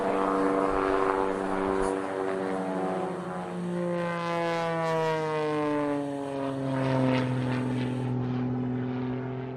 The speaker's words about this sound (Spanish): al tiempo que la nave buscaba de nuevo la pista de aterrizaje del aeropuerto El Guavito.